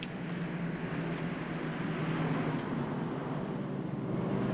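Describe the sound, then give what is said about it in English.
Freeway traffic grinds past in a steady, unbroken roar, heavy in low rumble with a broad hiss above, holding an even loudness throughout with no distinct vehicles standing out. “The traffic grinds along the freeway.”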